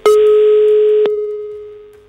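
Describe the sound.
A telephone ringback tone while calling someone: one steady, mid-pitched tone held for about a second, then a click and a fainter tone that slowly fades away.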